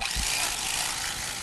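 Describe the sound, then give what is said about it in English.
A steady motorized whir from an electric knife cutting through a pecan pie, a continuous buzzing drone with an even level from start to finish and no pauses. “I know you love, power tools, but what's going on here? It turns out that electric knives work great for turkeys, but they work even better for pecan pie.”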